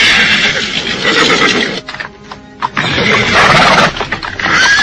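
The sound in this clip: Horse whinnying, loud and sustained, from horses that riders are dismounting before a tunnel; a brief quieter gap interrupts the neighing midway before it resumes strongly.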